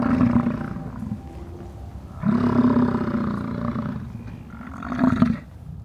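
Deep, guttural grunting roars from a large, shaggy, horned and humped bison come in a few long, rumbling bursts, loud and low-pitched with no talk.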